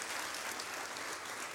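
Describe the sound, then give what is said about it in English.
A church audience clapping together, a quiet but dense, continuous patter of many hands with no break. “How many of us just love gathering here? It's just so much fun, right? We can clap.”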